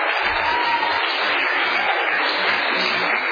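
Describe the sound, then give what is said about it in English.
Audience clapping at a live show, a dense, steady patter of many hands that holds at an even level throughout, with no voices clearly breaking through. “that clapping thing is so weird, you guys. No! Stop that shit.”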